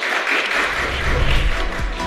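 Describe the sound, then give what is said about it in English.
Round of applause for a panel discussion on Web3 commerce, a loud, even wash of clapping with a low rumble beneath that stays steady from start to finish. “Round of applause for our great panel.”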